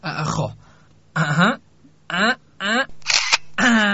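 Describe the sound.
A camera shutter clicks during a posed photo session, a brief mechanical snap set among stretches of a man talking.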